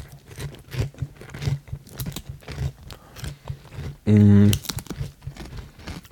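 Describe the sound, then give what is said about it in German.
Crunching and chewing while tasting a breaded, chicken-wing-flavoured snack, with crisp bites and crinkling packaging in irregular bursts, plus a brief loud hum partway through. “So, jetzt probieren wir mal Mario Chicken. Was soll denn das sein? Wir probieren erst und gucken mal, was wir dazu sagen.”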